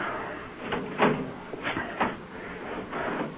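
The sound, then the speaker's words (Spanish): A key turns in a door lock and a bolt slides shut, giving a few faint metallic clicks and short scraping slides. “Échale llave y corre el pasador.”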